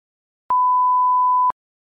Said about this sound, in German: El inicio y el final de cada texto de audio se indicarán con este sonido.